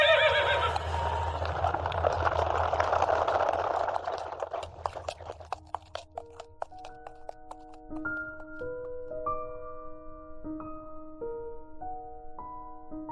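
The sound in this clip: A horse neighs in a long, rough whinny, then its hooves clip-clop in a quick run of sharp knocks for a horse-drawn carriage, followed by a series of sustained, chiming tones.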